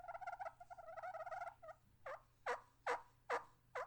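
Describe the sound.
A hen turkey call is played on a Perfect Hen friction call with a striker, giving a faint run of quick, rapid clucks followed by five sharper, evenly spaced yelps.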